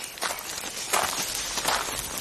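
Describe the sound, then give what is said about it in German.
Soft footsteps walk between rows of plants in a field where people are picking into baskets: a few faint, uneven steps with a light rustle and no voices. “Ich gehe mal zu ihm rüber.”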